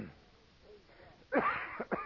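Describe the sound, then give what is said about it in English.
A preacher coughs during a morning sermon. After a quiet stretch comes one harsh, throaty burst, followed by a couple of shorter rasping coughs, like someone clearing a rough throat. “Excuse me. I might have to stop and cough once in a while”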